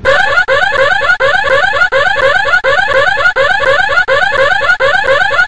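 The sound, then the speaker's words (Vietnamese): A loud alarm going off in a room with a safe, triggered when a bag of diamonds is lifted: a piercing electronic warble that repeats in short, even cycles without a break, with no voices. “Đúng lúc đó, tiếng chuông báo động vang lên. Và đó là thứ âm thanh to nhất mà Tracy từng nghe thấy.”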